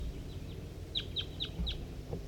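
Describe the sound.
Short, high chirping calls from a chicken and wild birds. A quick run of four bright chirps is preceded by fainter ones, all over a steady low rumble.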